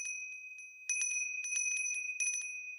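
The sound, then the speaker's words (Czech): A small bell rings with a bright, sustained high tone, struck in a quick, uneven series of tinkling hits that keep ringing over each other. “A jednoho dne Paleček zazvonil na zvonec”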